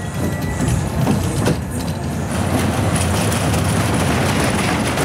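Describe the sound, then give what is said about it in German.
A fairground ride rushes over rails through tight curves with a continuous rattling rumble and rapid clatter. The sound is loud and sustained, with a brief dip before it steadies again. “über enge Kurven und Schienen saust das Fahrgeschäft.”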